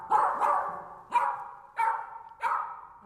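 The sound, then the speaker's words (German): Several sharp, loud barks from a German poodle, spaced in a loose rhythm, the first two close together and the rest about half a second apart, with no talking. “Klingt nach einem deutschen Pudel, oder?”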